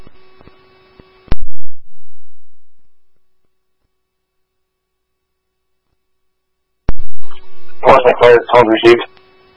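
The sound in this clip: Radio paging tones on a dispatch channel: a steady, low hum-like tone with fainter higher partials, then a sharp burst of static that decays away. After a silent pause comes a click and a short stretch of radio talk over the tone.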